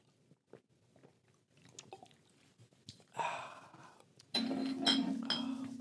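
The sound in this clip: Gulping of a drink, likely beer from a six-pack, being chugged: scattered soft clicks and mouth sounds first, then louder, steadier swallowing noises that build and carry on to the end, with no talking.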